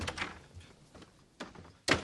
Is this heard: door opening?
yes